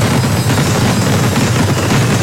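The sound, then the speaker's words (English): Fireworks exploding in an advertisement for a fireworks seller, a loud, continuous barrage of crackling bursts and deep booms with no pause. “3, 2, 1. Big Thunder Fireworks.”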